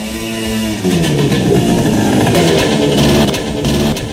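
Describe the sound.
Scooter engine running on illegal fuel: a brief quieter opening gives way to a loud, sustained, rough buzzing drone that holds steady with no talk.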